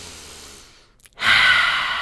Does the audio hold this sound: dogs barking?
no